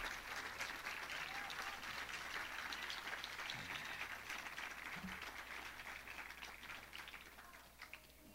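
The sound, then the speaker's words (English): Applause from the audience at a folk festival, a faint, dense and steady patter of many hands that carries on evenly and thins slightly toward the end. “And I hope you appreciate it. If you do, let's give him another hand.”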